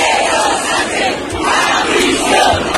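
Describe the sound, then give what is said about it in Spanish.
Mass chanting from around 50,000 anti-government protesters in central Madrid, rallying in support of Ceuta: a loud, continuous roar of voices with a steady rhythmic pulse. “Manifestaciones en apoyo a Ceuta, pero manifestaciones sobre todo contra el gobierno. Como se escuchaba en los cánticos, por ejemplo, en esta, 50.000 personas en el centro de Madrid.”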